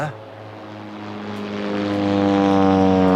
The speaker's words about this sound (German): Achso, das sind aber größere Maschinen. Ich meine, die können da nicht landen, oder? Ja, aber es kann trotzdem hier passieren. Wir gehören quasi zur Einflugschneise für den Münchner Flughafen.